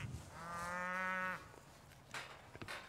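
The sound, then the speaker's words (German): A breeding bull in a cattle herd lows once, a long, steady, deep moo lasting about a second. Faint shuffling and a few soft knocks follow. “Bernie ist der Zuchtbulle in der Herde und letztendlich unberechenbar.”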